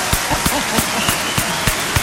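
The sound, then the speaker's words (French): Applause from an audience for a contestant, dense continuous clapping at a steady level with a few sharper claps standing out. “Allez, on peut avoir l'applaudissement.”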